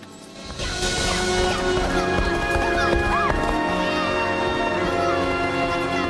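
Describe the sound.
Galloping hooves of the racehorse Stripes running down the straight of the Turfway Park racetrack, a fast, steady, continuous rhythm over sustained tonal sounds.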